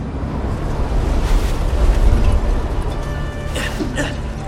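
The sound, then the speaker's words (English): Wind blowing harder: a broad rushing roar that swells toward the middle and eases slightly after, with faint thin whistling tones above it. “The wind blows harder.”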